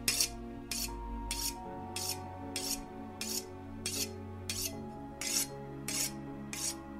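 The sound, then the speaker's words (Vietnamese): A butcher's knife is drawn across a whetstone set on a meat stall, making many steady, evenly spaced rasping strokes in a regular rhythm over a low sustained tonal hum. “Gã mài con dao xoèn xoẹt lên viên đá mài để ngay trên cái sạp thịt.”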